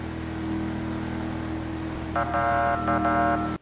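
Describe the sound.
Car engine in a police roleplay driving video game: a steady low drone throughout, joined in the second half by a few short bursts of a loud horn-like tone.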